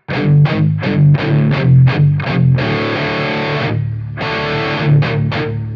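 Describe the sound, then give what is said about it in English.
Heavily distorted electric guitar in drop D tuning plays a metal open-string riff: a loud run of short, punchy repeated notes, then a long sustained chord, then a few more clipped notes. “which is a little drop D open string riff that sounds like this.”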